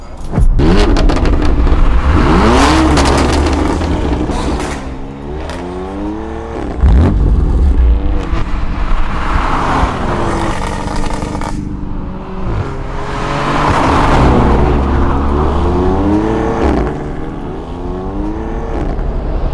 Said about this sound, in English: That right there is a 2020 CLA 45S. That's right, the brand new CLA.